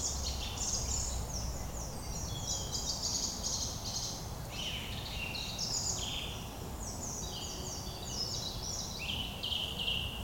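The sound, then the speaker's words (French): A song thrush singing repeated notes among other birdsong, with many bright high chirping phrases recurring across the whole stretch over a steady faint outdoor hiss. “Cette note répétée, c'est la grive musicienne. Derrière, on a toujours un pigeon ramier et le rouge-gorge.”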